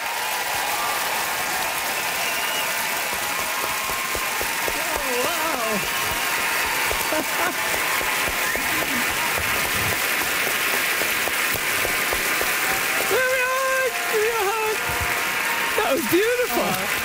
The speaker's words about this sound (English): Great applause, rock applause, and that's how you get to see folks.